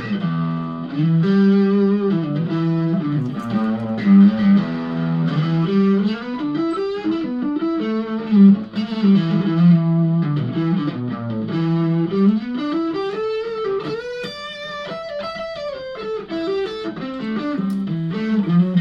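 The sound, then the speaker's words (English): An electric guitar played on its neck pickup through a distortion effect, sustained melodic notes with sliding bends rising and falling, loud and continuous throughout. “All right, so this is just the neck pickup.”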